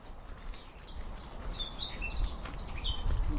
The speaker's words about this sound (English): What bird's that